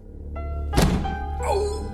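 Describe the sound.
A single heavy thud as a person rams into a door after a strong run-up. The sharp, dull impact stands out once over a steady low background.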